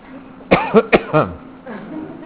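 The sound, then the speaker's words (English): Coughing during a lecture: a tight cluster of a few short, voiced coughs in quick succession, moderately loud, followed by a fainter throaty rasp. “I'm about ready to start coughing. Hold on.”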